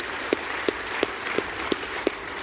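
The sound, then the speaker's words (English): Applause from a conference audience at the close of an event: a steady wash of clapping, with about seven sharper claps standing out at an even, regular beat. “To give them a round of applause.”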